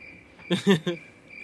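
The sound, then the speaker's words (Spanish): A steady, high cricket trill runs through the whole moment, with a short burst of voice briefly rising over it in the middle. “Voy a seguir con estos grillos.”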